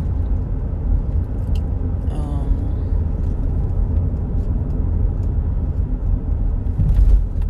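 Low, steady engine and road rumble from inside a car driving in traffic near Imperial Highway, continuous and even throughout with no clear breaks.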